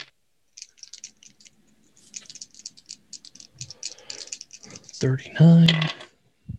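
Coins drop into a pool during a tabletop game session: sparse light ticks and clicks lead to a brief, louder metallic clatter with ringing near the end.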